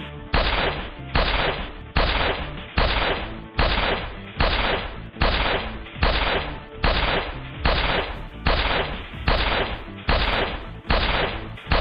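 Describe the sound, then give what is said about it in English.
Gunshot-like bangs in a long, steady series, each a loud sharp burst with a short decaying tail. They repeat at an even pace with no talk between them. “I'm going to shoot you!”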